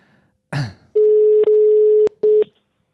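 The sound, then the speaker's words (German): A phone dials out to call someone back. A short rustling click is followed by a steady low tone of about a second, briefly broken partway through, then one more short burst of the same tone. “Oh ja, wir rufen sie nochmal an. Ich rufe sofort an.”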